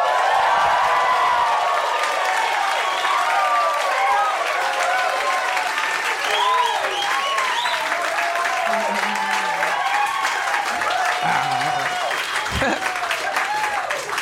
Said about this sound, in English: And we are recording in front of a live audience at the Hollywood Improv. Say hello.